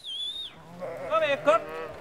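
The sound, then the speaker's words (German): Sheep bleat on a riverside meadow along the Leine, grazed short by the flock to keep the grassland from turning to scrub. A couple of short, wavering bleats rise over a quiet outdoor background. “Würden seine Schafe das Gras nicht kurz halten, würde die Wiese verbuschen, viele Insekten und Pflanzen verschwinden.”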